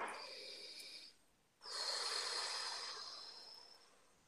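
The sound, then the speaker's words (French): Deep breathing during a guided exercise: two soft, airy breaths separated by a short pause, the second longer and gradually fading. No voices are heard. “Alors, une respiration.”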